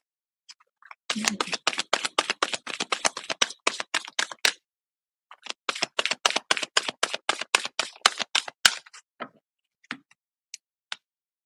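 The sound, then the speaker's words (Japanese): Oracle cards from a 44-card deck are flicked and drawn in two long bursts of rapid, crisp papery clicks. A short pause separates the bursts, and a few scattered taps follow. “アドバイスカードを引いていきましょうね。”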